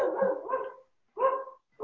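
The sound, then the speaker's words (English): A dog barks a few times in the background of a home video call. The barks are short, mid-pitched and fairly faint, with brief gaps between them and no talk over them. “I'm sorry if you can hear my dog in the background.”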